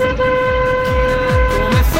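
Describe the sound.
A car horn sounds one loud, steady blare lasting about two seconds.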